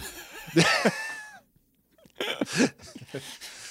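Someone clears their throat with a rough, voiced rasp. After a brief silence come several harsher, breathy throat-clearing bursts, heard alone without talk.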